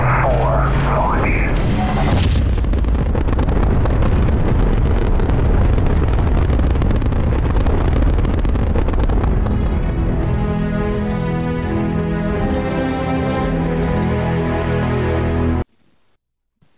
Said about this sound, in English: Main engines go. Ignition.